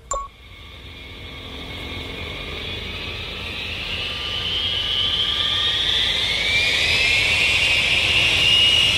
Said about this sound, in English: This is a pretty long cutscene. Sounds like an aeroplane to me. Oh man, that's loud.